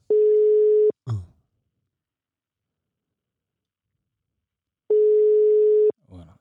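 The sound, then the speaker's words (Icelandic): A telephone line tone sounds while a call is being placed: two steady, mid-pitched beeps, each about a second long, separated by a long silence. A short burst of noise follows each beep. “Nei, ég er með núna að hringja hérna.”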